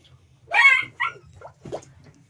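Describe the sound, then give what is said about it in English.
A dog gives three short, sharp yelping barks, the first loudest, over a faint low steady hum. “That was a dog.”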